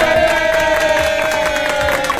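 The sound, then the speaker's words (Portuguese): A round of applause and crowd cheering rings out in a radio studio at Clube FM Chapecó for a visiting professor. The steady, loud crowd sound plays over a sustained background music tone. “Salva de palmas, produção, para a professora Ana Paula.”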